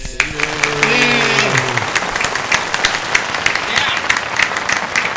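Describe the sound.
Canned applause sound effect triggered from a studio button: steady, dense clapping runs throughout, with people talking over it.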